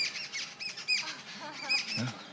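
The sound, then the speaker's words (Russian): Small birds chirp at a shrine, a few brief high tweets scattered across the moment, faint against a continuous noisy background. “See, even the birds are getting excited hearing her glories.”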